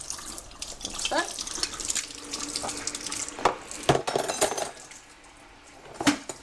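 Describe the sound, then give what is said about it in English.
Running tap water pours and splashes as plates are rinsed in a sink, a steady hiss with a few sharp clinks of dishware knocking together. “What do you do next? Rinse all the plates.”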